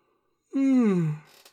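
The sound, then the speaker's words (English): A person gives a single drawn-out yawn, a voiced tone that slides downward in pitch over about half a second before trailing into a soft breathy exhale. “more yawns. They are coming in bunches right now.”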